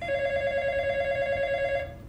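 An office telephone rings with a steady electronic tone rich in high overtones. One sustained ring lasts about two seconds and then fades as it cuts off.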